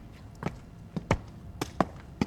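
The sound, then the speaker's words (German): A drumstick strikes the railing of a stone staircase at the Haus der Kulturen der Welt in Berlin, giving several sharp, dry taps at an uneven pace over a low background murmur. “Und schlagen das Geländer. Was nicht sehr spektakulär klingt.”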